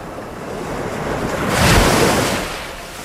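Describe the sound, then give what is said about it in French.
A huge ocean wave crashes against a wooden caravel under sail: a broad rushing surge of surf and wind that builds to a heavy peak, then ebbs away. “Tout à coup, une vague énorme projette Carmela sur le pont de la Santa Maria.”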